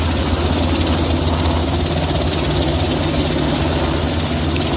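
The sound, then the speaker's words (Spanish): An 11-tonne helicopter's engine runs at startup as its rotors begin to turn, a loud, steady low rumble with constant vibration throughout and no clear change in pitch. “Desde la torre de control nos han dado luz verde para despegar hacia un día estupendo en Castilla-La Mancha, así que nos ponemos en marcha y poco a poco empezamos a mover los rotores.”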